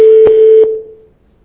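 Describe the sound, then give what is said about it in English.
A conference call system tone sounds before callers state their names: a single loud, steady beep at a constant pitch with two faint clicks inside it, fading out after about a second. “After the tone, please state your name.”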